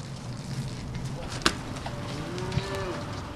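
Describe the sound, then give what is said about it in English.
Stray heifers mooing at a dairy farm near Waukon, Iowa: a faint, low, drawn-out moo rises out of steady outdoor noise, with a soft thump or knock heard briefly. “Tom Wehner rounds up a couple of stray heifers at his dairy farm near Waukon, Iowa, about 20 miles from Decorah.”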